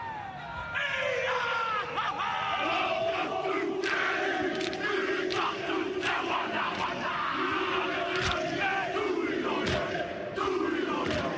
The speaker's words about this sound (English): That's the sound of the haka, the renowned war cry sung by the All Blacks before a match.